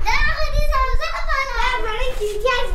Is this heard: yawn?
no